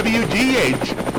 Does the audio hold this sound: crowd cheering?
no